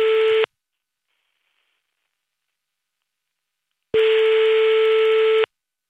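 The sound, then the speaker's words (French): A ringback tone sounds while a phone call is placed: a steady electronic beep cut off at the start, several seconds of silence, then one full beep of about a second and a half. “on appelle tout de suite ton grand frère Corentin.”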